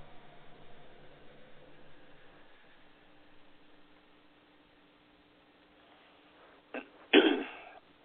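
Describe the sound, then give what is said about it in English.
Throat clearing from someone with a tickle in the throat: two short, rough bursts near the end, the second louder and longer, after a long stretch of faint hum and hiss. “Sorry, I got a tickle on my throat.”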